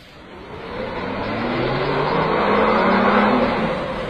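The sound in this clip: A car pulls away, its engine rumbling and building steadily in loudness as it accelerates, with a broad whooshing roll and no voices.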